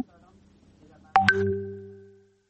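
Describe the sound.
An electronic line tone sounds abruptly as a phone call is cut off, after faint talk. It is a bright, sustained tone with a quick step in pitch, then it fades out steadily.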